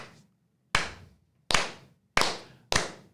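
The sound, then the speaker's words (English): Slow clap: loud, sharp, well-spaced claps that gradually quicken, each ringing briefly before the next, with no voices. “Nice slow clap.”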